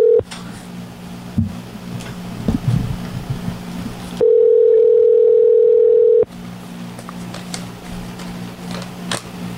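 A steady single-pitch telephone tone on a call line holds for about two seconds mid-clip, framed by stretches of hissy line noise and low rumble before and after.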